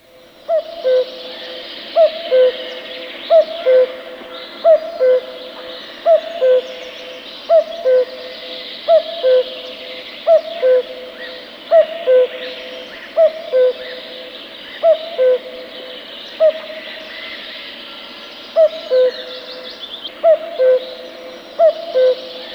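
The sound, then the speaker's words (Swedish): A common cuckoo calls over and over, a clear two-note falling call repeated many times in a steady, even rhythm, with no other voices. “Det var gök.”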